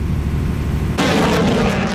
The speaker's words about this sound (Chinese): 随着射击指令的下达，远程多管火箭炮对海上靶标实施精确打击。